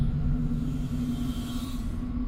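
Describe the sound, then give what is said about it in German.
Computer activating as a sound effect in a Solaris radio drama, a loud, steady low electronic hum with a sustained tonal drone and a faint higher whine above it, heard alone. “Der Computer aktiviert sich.”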